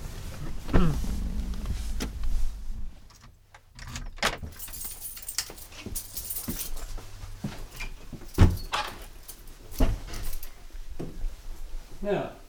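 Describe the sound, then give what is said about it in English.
A gate is opened at Farley Farm after someone gets out of a car. Keys jangle and several clunks and thuds sound under people talking. “Let me get out and open the gate.”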